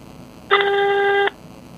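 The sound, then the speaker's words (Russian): A single electronic voicemail beep sounds after a phone message: one steady, bright tone with a clean pitch that holds for under a second before cutting off sharply, with quiet background around it. “Вы можете оставить сообщение после звукового сигнала.”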